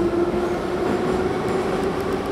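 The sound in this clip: A passenger train setting off gives a steady, even rumble with a constant low tonal hum running through it. The noise stays level throughout, with no voices.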